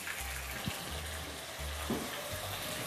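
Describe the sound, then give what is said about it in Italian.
White wine sizzles and hisses as it deglazes browned food in a hot pan, a continuous bright frying crackle with low bubbling underneath, heard alone. “Ah, beh, è ora di sfumare qui, eh? Ha rosolato che è uno spettacolo. Sfumatina di vino bianco.”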